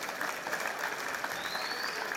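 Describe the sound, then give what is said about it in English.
Audience clapping at a live show, a thick, even wash of many hands held at a moderate level, fairly soft and continuous from start to finish. “Wanna clap if you celebrate success.”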